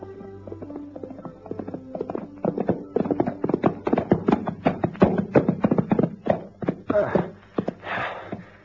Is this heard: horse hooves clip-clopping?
yes